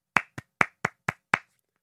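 Hands clap out the rhythm of a name in a classroom game: six crisp, separate claps in a short, fairly even pattern, alone with silence between them.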